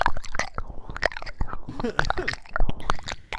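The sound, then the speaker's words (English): Wet tongue and mouth sounds from ASMR ear licking: many quick, moist clicks, smacks and squelches in an uneven, busy rhythm, fairly close and steady in loudness throughout. “It sounds like she's trying to clean out the person's ear, not sensually lick it.”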